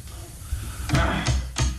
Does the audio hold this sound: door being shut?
yes